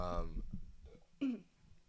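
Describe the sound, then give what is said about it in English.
A throat clearing with a bubbly, gurgling catch in the throat, a short rough burst that comes after some voiced sounds. “You have a bubble in your throat? Yeah, it kind of sounds like it.”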